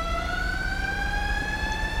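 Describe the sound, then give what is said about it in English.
An ambulance siren sounds in a video game: a steady electronic tone with bright overtones that climbs slowly in pitch over about two seconds, heard alone. “The ambulance!”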